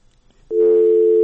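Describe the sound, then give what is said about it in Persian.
A steady, loud telephone tone after a call is cut off, starting abruptly partway through and holding one unbroken mid-pitched note to the end, with no talk over it. “تماسشم قطع شد.”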